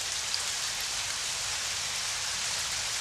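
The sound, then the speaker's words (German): Heavy rain pouring down in a narrow street, a dense, continuous hiss that stays at an even, steady loudness throughout with no voices. “Das Schweigen, das vom rauschenden Regen ausgeht. Regen.”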